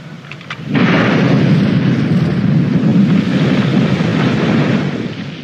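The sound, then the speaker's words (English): A deep, roaring rumble from the explosive 1991 eruption of Mount Unzen bursts in after a quieter opening and holds loud and sustained, easing slightly at the end. “That is the sound of all hell breaking loose. The interesting thing about Mount Unson and the 1991 eruption, yes, a number of people died”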